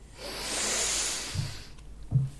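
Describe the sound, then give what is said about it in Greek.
Someone blows hard out through the nose to make small paper pieces fly: a long breathy hiss, then two short, low snorting bursts of air. “Και φυσάμε με τη μύτη τα χαρτάκια. Να πετάξουν.”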